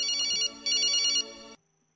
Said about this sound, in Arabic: مكالمات هاتفية نستقبلها.